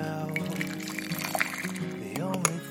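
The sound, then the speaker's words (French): Morning coffee pours in a steady, gentle trickle, heard under soft background music. “Il est 8h, votre café coule.”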